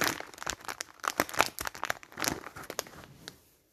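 Crunchy bites into a piece of pepper-flavoured food, a dense run of sharp crackling crunches that stay fairly loud for about three seconds before stopping, with no talking.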